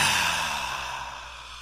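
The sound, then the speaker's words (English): A single long, deep breath, airy and steady, gradually softening as it continues, with no talk around it. “Deep breath in. Connect to your breath for a moment.”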